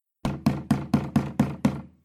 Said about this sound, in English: Who's that banging on the front door? Who's banging on the door?